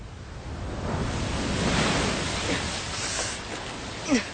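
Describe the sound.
Ocean swell and waves wash below a causeway as a steady, broad roar. The surf surges and eases gently, with no voices heard.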